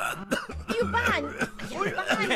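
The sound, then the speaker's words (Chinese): Harsh, voiced coughing mixed with throat clearing, a few rough bursts in a row. “你看， 师傅都被我感动的咳嗽了。”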